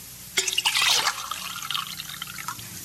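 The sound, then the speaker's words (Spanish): Tea pours into drinking glasses, starting with a brief splashy burst of liquid. It then thins into lighter trickling and scattered drips, all fairly quiet. “Y, llenando dos vasos, pasó uno a su visitante, que lo vació enseguida.”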